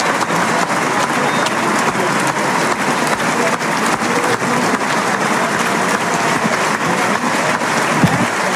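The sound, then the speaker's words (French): Ovation from the audience at Parc Théodore Denis: loud, thick, unbroken applause from a large crowd that holds at an even level for the whole stretch. “L'ovation du public du parc Théodore Denis.”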